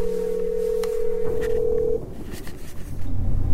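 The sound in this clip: A steady telephone dial tone holds for about two seconds while an old number is called, then breaks off into a low, rumbling background with no tone.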